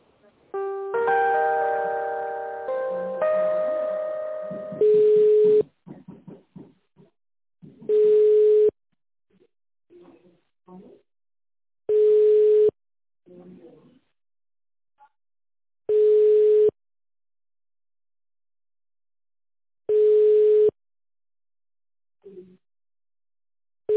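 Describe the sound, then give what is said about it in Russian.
Telephone line tones sound while a call is being transferred: a short melodic tone sequence comes first, then five evenly spaced, steady low beeps separated by quiet gaps. “Сейчас соединю с Мариной.”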